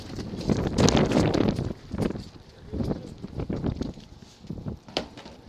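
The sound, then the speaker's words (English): Wind blows outdoors in irregular, rumbling gusts that buffet loudly, swelling and easing several times with no steady rhythm. “Wow. You know, the wind is like the Holy Spirit, amen?”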